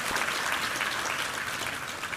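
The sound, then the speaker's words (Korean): Church audience applauding in thanks during a worship service, a steady, dense patter of many hands clapping that holds at an even level throughout. “우리 하나님께 감사와 영광의 박수를 올려드리겠습니다.”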